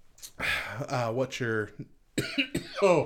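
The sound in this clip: A person coughs and clears the throat several times in rough, voiced, rasping bursts, then gives a few sharper coughs near the end, fairly faint.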